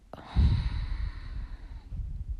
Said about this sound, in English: Breathe in. Breathe out.